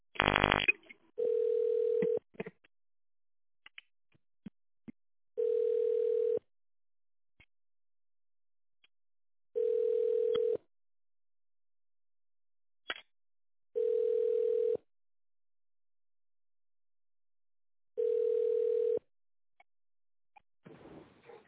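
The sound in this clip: Ringback tone while a phone call is being placed: five steady mid-pitched beeps, each about a second long, repeating at roughly four-second intervals with silence between them.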